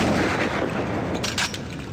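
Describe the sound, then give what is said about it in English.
A claw snaps shut and fires a blast of bubbles, heard as a loud, sharp blast over a dense, rushing crackle of noise. “First, its claw is cocked like a pistol, then fired.”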